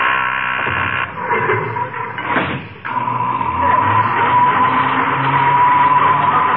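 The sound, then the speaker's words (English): A noisy self-operated passenger elevator runs with a loud, steady mechanical roar and an underlying hum. A brief grinding swell and dip come partway through before the drone settles back to a constant level, with no voices. “The elevator makes so much noise, you can't hear it.”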